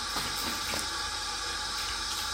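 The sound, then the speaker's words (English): Water splashed from cupped hands onto a face, a steady wet rushing with a few brief splashy bursts throughout and no talking. “when you try and do it like they do in the advert, so you get water in your face, in your hands, and go, that don't work.”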